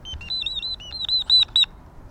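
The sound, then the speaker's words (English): Robotic toy bird chirping: a rapid run of short, thin, high-pitched electronic tweets lasting about a second and a half, fairly quiet and alone, with the last few chirps slightly louder. “That's a robot bird.”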